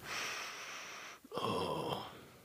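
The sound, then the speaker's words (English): Sniffing of a rose petal: a long, steady drawn-in breath through the nose, a brief break, then a second stronger sniff. Soft and airy, with no voices. “It's a very light sniff you got going there. There you go. Get a full breath.”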